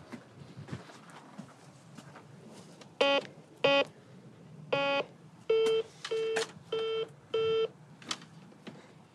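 A modern doorbell intercom panel gives seven short electronic beeps in an uneven sequence. They stand out clearly against quiet background noise.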